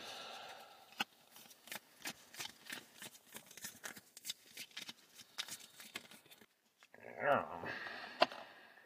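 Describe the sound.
Tarot cards are pulled and handled, giving many crisp clicks, snaps and soft slides in an uneven rhythm, with a louder shuffling burst and a sharp snap near the end.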